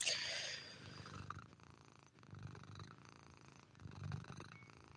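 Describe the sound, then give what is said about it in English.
A cat purrs softly and steadily, a faint low rumble that swells in slow, rhythmic pulses with no other sound over it. “The rhythm of the cat is kind of ASMR like, though.”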